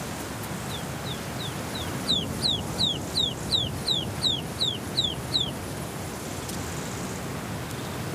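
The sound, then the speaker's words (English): Ptarmigan chicks call loudly in mountain terrain with a quick, regular series of high, thin, downward-slurred peeps. The peeps start softly, grow louder, then stop, over a steady background hiss. “But the loud, plaintive calls of the chicks soon reunite the family.”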